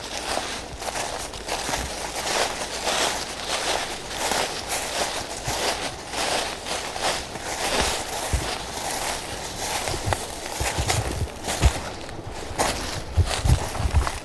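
Footsteps walk around a forest among ring-barked and burnt trees, a steady run of soft crunching steps over leafy ground with some rustling, which grows a little heavier toward the end.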